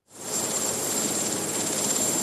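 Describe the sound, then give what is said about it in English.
A presidential helicopter gives a steady, loud, broad roar of engine and rotor with a thin, high whine above it, rising quickly at the start and then holding level, with no talk. “As President Trump strode out to his helicopter Marine One”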